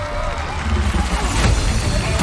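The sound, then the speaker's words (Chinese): An audience applauds and cheers a 78-year-old man performing a grip-change move on a horizontal bar. The dense, continuous crowd noise swells toward the middle and stays loud throughout. “翻把收力臂，漂亮，给爷爷鼓鼓掌。”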